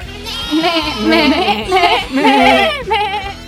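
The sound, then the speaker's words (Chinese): Little goats bleat as they rush into a classroom, with several loud, wavering cries overlapping almost continuously. “小红帽说完，立刻打开教室的门，七只小羊冲进来。”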